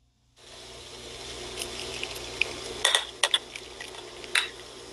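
Liquid is poured slowly over Fruity Pebbles cereal. After a brief silence a soft, steady pouring hiss begins, and a few sharp clinks and crackles break through near the end.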